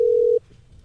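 A single short, steady telephone beep sounds before a voicemail greeting, then the line falls nearly silent.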